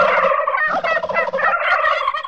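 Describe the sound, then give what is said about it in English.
Turkeys gobble through a valley in loud, continuous, overlapping rattling calls from several birds, with no pauses. “As Sammy approached the entrance into Turkey Valley, he began to hear the sound of turkey gobbling echoing throughout the valley.”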